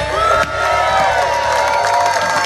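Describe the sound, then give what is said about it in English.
A live audience at 50 West Brewing Company cheers and whoops in a loud, continuous wash of crowd noise, with shouts rising above the steady roar. “We are here live at 50 West Brewing Company. How's everybody doing out here tonight?”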